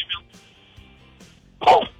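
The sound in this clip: A single sharp cough from a caller on a radio phone-in line bursts out loudly near the end, after quieter, faint fragments of talk and line noise.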